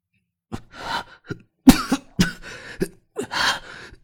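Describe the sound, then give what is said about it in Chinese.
Repeated coughing after gulping Chinese baijiu liquor: a long run of harsh, rasping coughs and throat-clearing bursts in uneven clusters, loud and with no talk over it. “又灌了好几口白酒，咳了好几声，发现唾沫里都带了血丝。”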